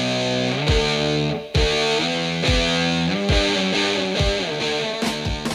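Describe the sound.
Crunchy, heavily distorted electric guitar plays a repeating rock riff of gritty power chords joined by sliding pitch drops, loud and continuous with no voices over it.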